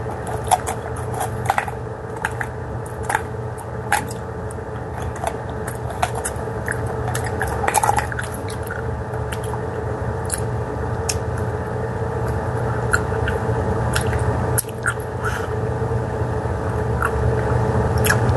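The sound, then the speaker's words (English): Close chewing of Reese's peanut butter candy, with many small wet, sticky clicks and squishes running steadily over a constant low hum, with no talk. “Reese's now. That's awesome. What? I'm eating my Reese's. It's awesome. Mmm, yum yum.”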